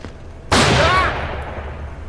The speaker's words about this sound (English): That was your one warning shot.